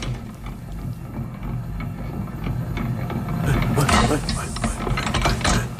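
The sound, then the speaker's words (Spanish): Whirring, ratcheting clatter of a mixer with rotating arms, a continuous mechanical grinding that grows slightly louder toward the end. “O sea, ¿qué es este sonido? Esto es una mezcladora, uno de estos brazos que van girando.”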